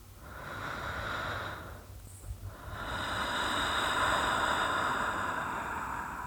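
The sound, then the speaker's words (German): Strong, deep breaths taken during a guided breathing exercise: long, loud, airy rushes of breath with a brief lull near the middle, and no talking. “Und nimm jetzt ein paar kräftige Atemzüge.”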